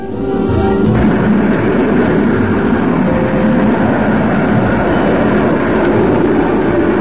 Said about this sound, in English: Here, a rocket sled tests pilot safety equipment by simulating the fantastic stresses of supersonic flight.